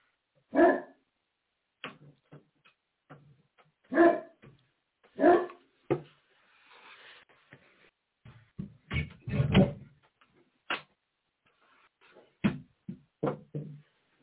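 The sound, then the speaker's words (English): A dog barks in a series of irregular, loud barks, mixed with a few softer yips and whimpers, with quiet gaps between the outbursts. “That's my dog in the background. Don't worry about it.”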